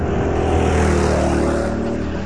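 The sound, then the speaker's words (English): Go-karts racing flat out just after the start, their engines making a loud, continuous buzzing roar that holds steady without a break. “Coming towards the start line now, this is looking good, and they're away. The race is on. Good start. Kart number two is leading from kart number eight.”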